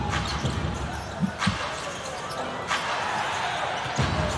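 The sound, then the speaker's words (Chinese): Basketball dribbled under the basket during a professional game, a few dull bouncing thuds beneath continuous crowd noise and spoken commentary. “运球在篮下，为所欲为。”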